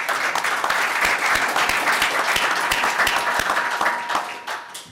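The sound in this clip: An audience applauds to welcome guests onto a panel about CBD in athletics: steady, fairly loud crowd clapping that holds evenly, then tapers off in the last half second.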